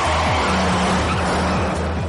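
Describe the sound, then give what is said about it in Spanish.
A sports car speeds along a city avenue, weaving through traffic and running red lights. A loud engine roars with repeated revving surges, with a hint of tire squeal. “El deportivo de Gabriel corre a toda velocidad por la avenida. Sortea con audacia suicida al resto de vehículos. Irrumpen los cruces ignorando los semáforos y provocando el caos.”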